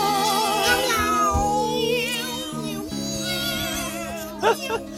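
Cat meowing along to a rock song cover, its wavering, drawn-out vocal tones standing in for the singer over steady low musical notes, with a few sharper bursts near the end.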